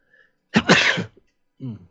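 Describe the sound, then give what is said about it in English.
One loud, abrupt sneeze bursts out and then tails off quickly. A brief, softer voiced sound follows after a short gap. “I totally failed on that mute. I was reaching for the mute button. I sneezed for audio listeners.”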